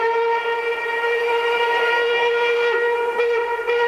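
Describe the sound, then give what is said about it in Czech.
An express train sounds its whistle, a loud, sustained, rich harmonic tone held steady almost throughout, with a slight dip and waver toward the end. “Náš ostře sledovaný rychlík 651 projel už Mýto, Kařízek, Zběroch, Cerhovice a blíží se...”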